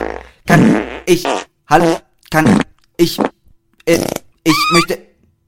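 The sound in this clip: Fart sound effect given as a series of several separate buzzy bursts with short gaps between them, fairly loud and alone.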